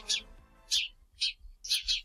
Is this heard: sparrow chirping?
yes